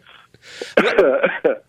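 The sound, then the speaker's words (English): Coughing and throat clearing from a person with a bad cold: a few loud, rough bursts, one longer and harsher than the rest, with short gaps between them. “Excuse me. I've got a really bad cold, you know, and I'm coughing and sneezing a little bit.”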